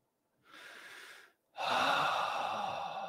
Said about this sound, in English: And feel it and breathe it out. Let it go.